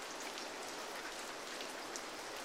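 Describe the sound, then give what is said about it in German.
Rain falls in a faint, steady hiss with no pauses and no voices. “Es regnet.”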